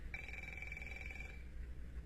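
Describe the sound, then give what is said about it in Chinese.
A telephone rings with a steady, high electronic trill that lasts just over a second and then stops, leaving a low background hum. “稍等一下，喂，是个业务电话。”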